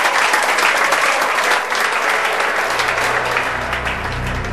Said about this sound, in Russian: Похлопаем им решительно, товарищи!